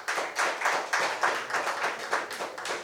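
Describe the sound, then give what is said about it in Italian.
An audience applauds a band at a live event where the crowd votes by clapping. Dense, loud clapping swells in a steady rhythmic pulse throughout. “Ma adesso voglio un bel applauso per Rocktown!”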